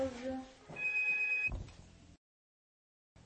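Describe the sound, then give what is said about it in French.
A telephone rings with steady, bright electronic tones layered over some background noise. A short burst of ringing is followed by a brief louder noise, then silence. “Ah, téléphone. Là, c'est le téléphone.”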